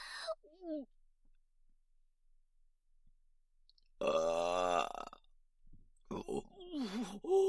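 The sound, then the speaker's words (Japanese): A coarse, loud burp from a person: one long, rumbling belch in the middle, with short voiced murmurs and breathy sounds before and after it. “下品なゲップ出してしまいました”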